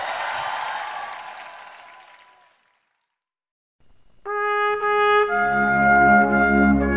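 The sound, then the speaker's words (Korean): Church audience applause in a Korean worship setting fades out over a couple of seconds into silence, then sustained musical tones enter and swell into steady instrumental music. “승리 주신 하나님께 승리의 하나님께 큰 박수 한번 올려드립니다.”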